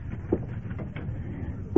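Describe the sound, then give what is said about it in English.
A curtain is pulled open with a soft, continuous sliding rustle lasting about two seconds, marked by two brief, slightly sharper accents near the start and at the end, at a low, steady level with no voices. “Come on. I can open the curtain myself.”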